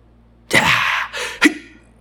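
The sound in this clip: A voice imitates the anti-G straining breath fighter pilots use in high-G turns: a sharp, forceful breathy blast, a brief hiss, then a short clipped grunt, loud and alone.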